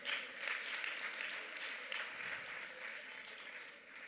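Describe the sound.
Applause from a church audience during a sermon: a steady, continuous patter of clapping that stays faint and even throughout, then thins slightly at the end.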